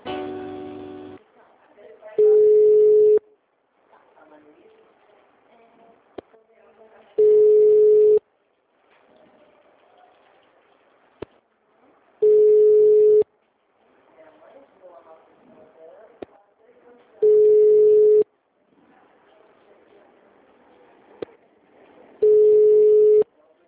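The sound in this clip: Telephone line tones during a call transfer: five steady beeps of about one second each recur at even five-second intervals over a faint, murky background with occasional clicks.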